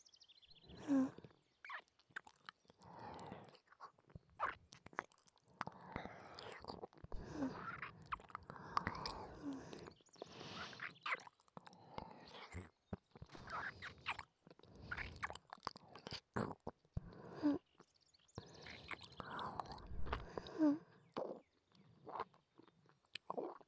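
Food is eaten with soft, moist chewing and occasional crunchy bites, close and quiet. Many irregular mouth sounds and small breaths continue throughout, with brief pauses between bursts of chewing.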